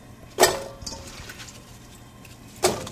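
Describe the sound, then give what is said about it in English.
Apples dropping into a can to start apple butter: two sharp, hollow clunks a couple of seconds apart, with a softer knock between them. “Put them in a can. In go the apples.”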